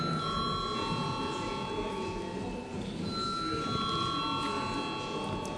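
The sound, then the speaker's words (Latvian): A parliament voting bell sounds as a sustained electronic ringing made of steady high, bright tones that shift slightly partway through, with a low murmur of the chamber underneath. “Lūdzu zvanu.”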